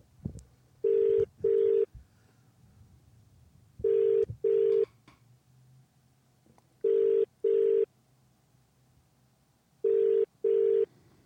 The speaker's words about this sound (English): I'm going to call a different number